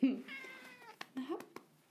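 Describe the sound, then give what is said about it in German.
A cat meows once in a long, wavering, fairly soft call, followed by a few brief clicks and a shorter, fainter chirping sound. “Meine Katze möchte mitmachen. Also oder was zu essen, man weiß es nicht.”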